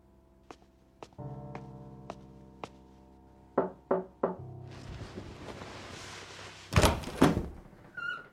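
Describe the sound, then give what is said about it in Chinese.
Knocking on a door: a series of light, evenly spaced taps, then three firmer knocks, followed by a louder thud and rustle. “外头的脚步声去而复返，渐行渐近，直至敲门声响起。”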